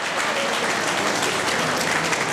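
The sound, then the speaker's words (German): Dense applause for a female teacher, a professor, during a cheerful radio show, with many hands clapping together in a steady, even wash for the whole short clip. “Ein großer Applaus für die Frau Professor.”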